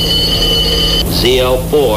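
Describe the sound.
A telephone rings inside a truck cab with a steady, high-pitched electronic tone for about a second, followed by speech.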